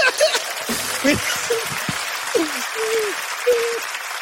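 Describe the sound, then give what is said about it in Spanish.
Live audience applause, a dense, continuous clatter of clapping throughout, with whoops and shouted voices rising over it. “Pero también qué complicado estar aplaudiendo así, ¿no?”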